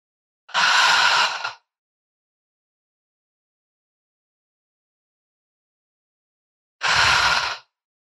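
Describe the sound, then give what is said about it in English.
Two deep, airy breaths taken as part of a guided breathing exercise, in through the nose and out through the mouth. Each lasts about a second, separated by roughly five seconds of silence, with no talking. “take four deep breaths with me. Breathe in through your nose, out through your mouth three more.”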